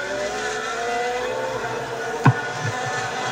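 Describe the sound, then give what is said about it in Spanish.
Formula 1 race cars at the start of a Grand Prix, engines droning steadily with layered high, whining harmonics and one brief sharp knock partway through. “vamos a ver aquí la partida de la carrera.”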